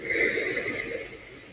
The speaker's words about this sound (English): Everybody breathing in through your nose, out through your mouth. Breathe in all that happiness